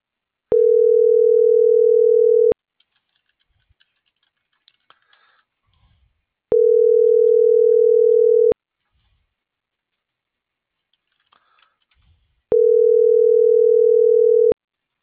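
Telephone ringback tones while a call is being placed: three steady, even tones of about two seconds each, separated by roughly four-second gaps, with faint clicks and rustles between them.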